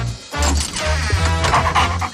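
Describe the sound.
A dog barks and yips a few times, the short bursts blending into a dense, continuous layer of other sound that runs throughout.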